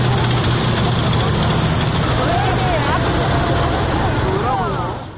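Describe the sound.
Military vehicles and tanks rolling past in a rainy parade in Seoul, a dense, steady roar of engines and road noise that holds loud throughout and fades at the very end, with a voice speaking over it.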